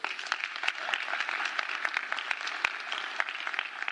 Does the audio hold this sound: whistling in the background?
no